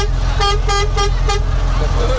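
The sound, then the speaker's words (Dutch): Car horns honking in traffic at a red light: four short, bright toots in quick succession, each a rich tone, over a steady low engine rumble. “Ze horen de toeter. Ze horen jullie toeter. Hey. Ja. Ze blijven maar toeteren.”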